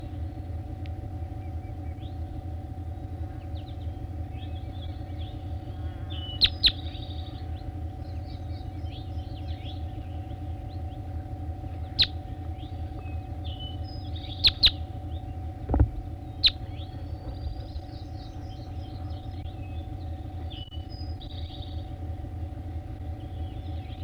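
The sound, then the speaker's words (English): Faint, scattered high bird chirps and song phrases sound over a constant low rumble of engine or traffic noise throughout. A few sharp clicks stand out briefly. “Recording bird 3-4.”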